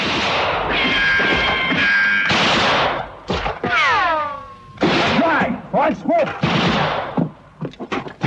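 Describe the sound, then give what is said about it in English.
Gunfire in a shootout on a walkway: many loud, sharp shots and heavy bursts, some in rapid clusters, mixed with voices and sweeping tonal sounds. “He notices this, but keeps firing.”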